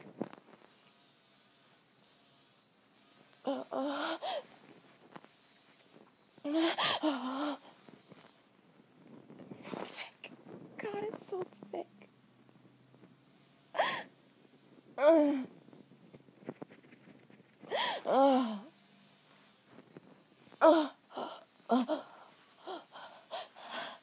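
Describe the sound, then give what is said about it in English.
A person takes slow, long breaths, many drawn-out gasping inhales and exhales separated by quiet pauses, some with a rough, wheezy, half-voiced edge. “a little longer breaths. Slow feels good.”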